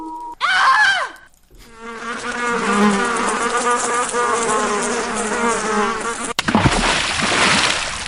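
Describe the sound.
Flies buzz around spoiled food: a steady, wavering drone with a rough, nasal tone holds for about five seconds. It stands alone with no talk over it, and a noisier rush follows at the end.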